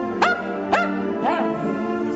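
A dog barks at its own bar mitzvah-style party, giving three short, tonal yips whose pitch bends up and then down, each clearly audible on its own with no talk over them.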